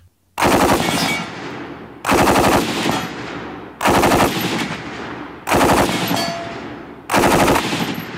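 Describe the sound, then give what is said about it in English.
Bursts of gunfire from an M240 gas-operated, belt-fed machine gun firing 7.62mm rounds: five loud, sustained bursts of rapid shots, each lasting over a second and separated by short pauses. “our gun teams used the M240 machine gun, which was an improvement to the M60. It's a gas-operated machine gun which fires 7.62mm belt-fed rounds.”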